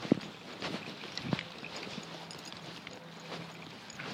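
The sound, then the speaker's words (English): Faint footsteps cross a freshly cut grass green, a few soft thuds with a light, even background hiss. “We're just walking across the green.”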